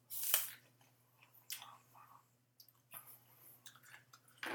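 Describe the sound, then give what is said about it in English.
Someone chews a crisp Red Delicious apple. A few sharp, crunchy bites are followed by quieter, moist chewing, all faint and close, with no talking. “Very delicious. It doesn't disappoint. Red Delicious does not disappoint.”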